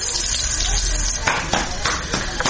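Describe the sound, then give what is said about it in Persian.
Bolani, Afghan stuffed flatbread, sizzles as it fries in oil, cooked by a woman in the Shahrara garden; a steady, dense hiss runs throughout with small crackling surges. “شمیلا جاوید مصاحبه ای را با یک تن از زنانی که مصروف پختن بولونی در باغ شهرارا است انجام داده است که آیا او هم در پخت و پز روغن زیاد استفاده کرده و یا زیاد سرخ می کند یا خیر.”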